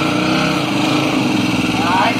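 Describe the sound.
A small engine runs steadily throughout, giving a buzzing, rattling drone with a slight rise in pitch near the end. A voice is heard over it.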